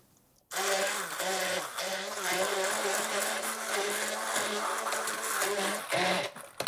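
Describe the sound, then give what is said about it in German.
A hand blender purees cooked, drained mushrooms in a container, a steady buzzing motor whir that starts abruptly and wavers slightly in pitch as it churns before cutting out near the end. “Wir tun die Pilze hier in den Behälter rein. Pürieren die Masse mit einem Zauberstab.”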